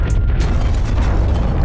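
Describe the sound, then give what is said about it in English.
Deep, continuous rumbling roar of a building made of strong alloys being destroyed, with heavy low-end noise held steady and loud throughout and no distinct separate blasts. “What a delightful sound. It's the sound of your building being destroyed by your foolish actions.”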